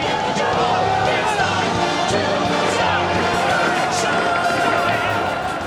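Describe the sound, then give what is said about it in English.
Hundreds of cane-wielding demonstrators protesting in New York streets over the shutdown of Broadway theaters, a dense, steady babble of many voices with scattered shouts and knocks. “That's the sound of hundreds of cane-wielding demonstrators taking to the streets of New York today to express their outrage over the shutdown of the city's Broadway theaters.”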